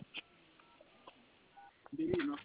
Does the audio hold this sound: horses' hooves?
no